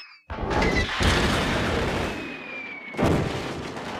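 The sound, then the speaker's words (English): Comedic explosion of a piano blowing up a golf ball: a loud booming blast with a long rumbling tail, then a second sharp burst near the end. “Oh, would you look at that? Gosh, looks like a piano blew up your ball”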